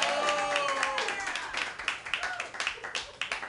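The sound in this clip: Comedy club audience clapping for Batman. A voice speaks briefly, then scattered, uneven hand claps follow in a loose rhythm and stay at a moderate level.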